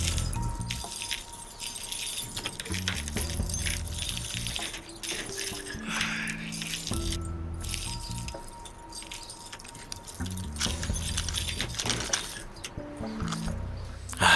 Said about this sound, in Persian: چرا این همه کلید؟